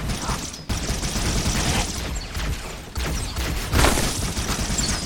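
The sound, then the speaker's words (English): Weapons fire in a video game, a dense continuous rattle of gunshots that runs through the whole stretch, with sharper bursts near the middle and toward the end. “I hear the sound of weapons fire.”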